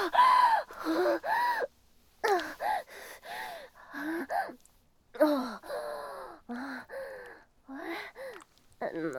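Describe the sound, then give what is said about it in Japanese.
Man panting, out of breath: many heavy, voiced gasping breaths in irregular bursts, separated by brief pauses, fairly quiet overall. “さてはおっさん息切れか。”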